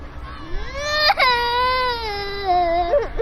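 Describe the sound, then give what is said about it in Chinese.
A child cries in one long, wavering wail with a clear, tonal voice, breaking briefly with a sharp catch early on, then sliding gradually lower in pitch before a short sob at the end. “你别哭了”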